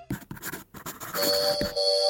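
A pencil scratches across paper in several quick, dry strokes with short gaps, then becomes a denser, continuous scraping in the second half, heard alone with no voices.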